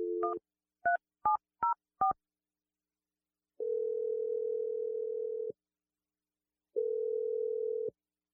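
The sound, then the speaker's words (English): Touch-tone dialing of a telephone number: five short dual-tone keypad beeps in quick succession, then two long, steady ringing tones separated by silence. “So I'm going to dial Sandra's number.”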